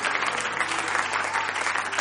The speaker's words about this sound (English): Let's give him a hand clap tonight.